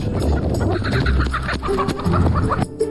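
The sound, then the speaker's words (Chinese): A flock of chickens on a deep-mountain farm clucks and calls without pause, many overlapping bird voices forming a loud, busy chorus for the whole stretch. “他常年一个人在山上与鸡群相伴”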